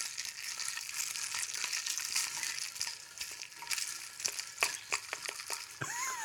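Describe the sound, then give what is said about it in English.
Ice stirred in a drink mixed with club soda: a steady fizzing hiss runs throughout, broken by many light clinks and knocks as the cubes are moved around. “some ice mixing here for you guys”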